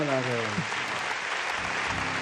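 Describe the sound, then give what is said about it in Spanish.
Audience applause at a live music performance: a steady wash of dense clapping throughout, with a brief tonal sound near the start. “por favor, un gran aplauso para...”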